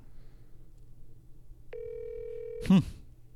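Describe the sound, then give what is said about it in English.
An outgoing phone call gives a single steady electronic ringback tone lasting about a second before voicemail picks up. A short, loud click-like burst follows it, over a faint low hum. “Your call has been forwarded to voicemail. What? The person you're trying to reach is not available. The PlayStation man. Yeah, why did the PlayStation man not pick up?”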